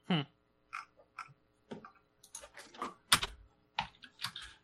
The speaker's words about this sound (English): It would help if I could type right.